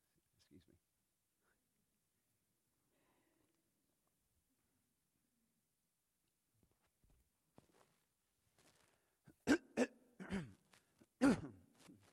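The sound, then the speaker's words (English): A preacher clearing his throat: after near silence, a few harsh, rasping bursts come in quick succession near the end. “sometimes preachers get a frog in their throat at the most inconvenient of times.”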